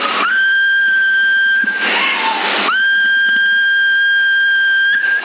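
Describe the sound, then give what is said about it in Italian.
Whistling carried over a CB radio link on channel 14, thin and band-limited: a long, level, steady tone, a brief wavering break, then a second sustained flat tone that holds to the end. “Quant'è il mio segnale adesso lì? E se fischio invece?”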